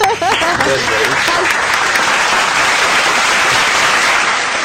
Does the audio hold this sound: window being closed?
no